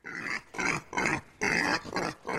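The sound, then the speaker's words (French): A sow being dragged into a courtroom, held by four men, lets out a rapid series of harsh, loud squeals and grunts in separate bursts with short gaps between them. “La truie est alors traînée dans la salle de justice, maintenue par 4 hommes.”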